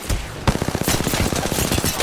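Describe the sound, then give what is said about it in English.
Rapid gunfire in a video game: a fast, steady stream of many loud shots that starts after a brief rumble and continues without a break to the end. “Who's shooting me?”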